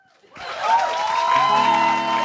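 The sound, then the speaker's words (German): Audience applause and cheering for a late-night show's house band, rising abruptly after a short quiet start into a loud, steady roar of clapping with voices whooping on top. “Wir machen es eben jetzt so, dass wir nochmal einen ganz, ganz, ganz, ganz grossen Applaus geben an unsere Late Night Band.”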